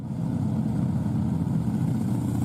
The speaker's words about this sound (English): If you're anywhere around Milwaukee beginning September 3rd, you probably won't have to wonder what's making that unmistakable sound. Harley-Davidson's new The Ride Home celebration is bringing riders from across the country